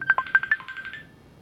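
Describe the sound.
Electronic telephone tones from a call being dialled that fails to connect: a quick run of short, clear beeps, then a steady tone that fades out.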